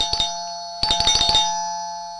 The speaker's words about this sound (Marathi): अरे बेल वाजली, आता कोण आलं असेल?